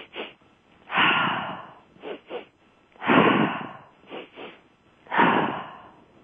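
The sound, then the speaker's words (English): A person demonstrates a breathing technique during a guided session: two quick sniffing inhales through the nose, then a longer, breathy exhale out the mouth. The pattern repeats several times with no talking. “My favorite is probably breathing two inhales in through the nose and then an exhale out the mouth. So it sounds like this.”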